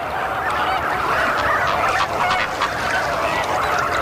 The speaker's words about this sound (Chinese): 好在每只新鸟都能发出独特的叫声。